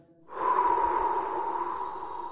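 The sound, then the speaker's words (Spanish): A single deep breath: a long, noisy inhale that starts abruptly after a short silence and holds steady for about two seconds, alone with no talk. “Respira.”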